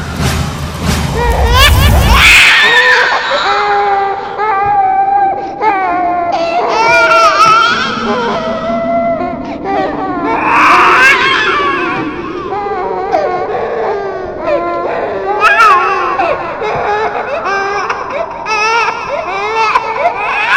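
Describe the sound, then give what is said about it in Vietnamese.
A baby crying over a car radio, with continuous high wailing sobs rising and falling in pitch, loud throughout, after a low rumble at the start. “Nhưng vừa bật đài lên lại nghe thấy tiếng trẻ con khóc.”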